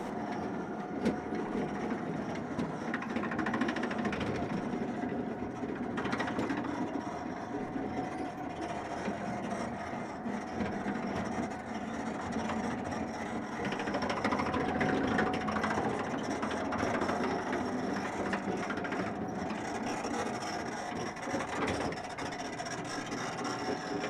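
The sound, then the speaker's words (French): Metro train stopping at a station: a faint, steady mechanical rumble with thin metallic squealing tones running through it, and a few brief clanks over about twenty seconds. No voices. “Un métro s'arrête dans la première station de l'hypercentre.”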